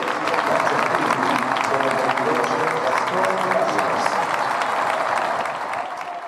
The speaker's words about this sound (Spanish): este es el sonido del estadio Heliodoro Rodríguez López